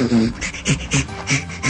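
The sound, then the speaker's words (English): Breathy, rhythmic panting laughter of a chimpanzee being tickled, with many quick, hoarse pulses in a steady run. “That's the sound of a chimp being tickled and laughing.”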